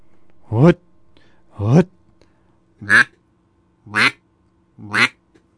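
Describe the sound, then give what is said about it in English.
Five loud quacks are blown on a basic duck call, each pushed from the belly. They sound as short, raspy, reedy bursts spaced about a second apart, with quiet between them. “That's the basic duck call.”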